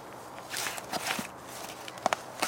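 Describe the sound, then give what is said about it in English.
Shovel work in wet, clay-heavy backyard garden soil after rain: a few soft, gritty crunches and scrapes, fairly faint, with no talk. “In this handful of soil that I just shoveled up”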